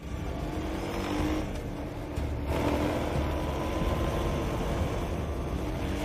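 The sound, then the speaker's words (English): ATV engine driving along the base of a ridge: a steady, loud motor drone that holds at an even level throughout, with no pauses. “Quaid flies along the base of the ridge on his ATV.”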